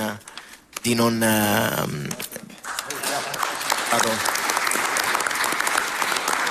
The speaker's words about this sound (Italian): Il presidente del Senato Ignazio La Russa, l'applauso a lei, grazie davvero per averci raggiunti.